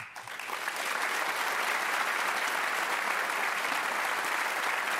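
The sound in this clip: An audience applauds as a 17-year-old violinist is welcomed onstage. The dense clapping swells within the first second and then holds steady and full.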